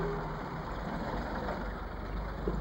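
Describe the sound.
A car drives through pouring rain with its wipers running, heard as a steady low engine rumble blended with a constant broad hiss, unchanging throughout and with no voices.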